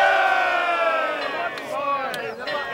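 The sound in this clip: A crowd of voices shouts hip hip hooray in three cheers for a boy, a loud chorus of sustained, ringing shouts that swell and fade in quick succession.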